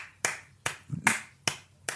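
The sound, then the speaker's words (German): Hands clap five times in a slow, even rhythm, each clap a sharp, crisp crack followed by a brief quiet gap. “Und das ist doch einfach ein Applaus deswegen wert.”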